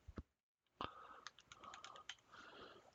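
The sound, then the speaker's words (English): Soft typing on a computer keyboard: many quick, irregular key clicks, faint and close together, after a short pause near the start. “Tippity I have to tippity type.”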